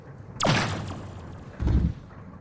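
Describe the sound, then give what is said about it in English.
A gunshot cracks out sharply and loudly, then fades in a ringing tail, followed about a second later by a deep, dull thud. “That was quite a shot.”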